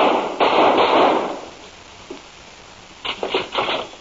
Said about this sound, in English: I just shot Dr. Scars.